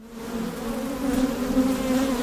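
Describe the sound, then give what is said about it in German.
Thousands of bees buzz around long rows of green-and-red wooden hive boxes at a professional apiary. The swarm makes a dense, continuous drone with a steady low hum that swells slightly louder partway through, with no voices. “Um die Holzkästen schwirren tausende Bienen”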